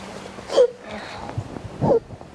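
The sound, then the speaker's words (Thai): A small child sobbing, with two brief catching sobs and faint whimpering breaths between them, fairly quiet throughout. “ไม่ต้องร้องไม่ต้องร้อง ลูกสะอื้น”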